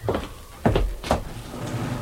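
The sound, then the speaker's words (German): Wooden secretary desk being opened: a few muffled knocks and thuds of its lid and parts, moderately loud over a faint steady background hum. “Ich soll den Sekretär öffnen.”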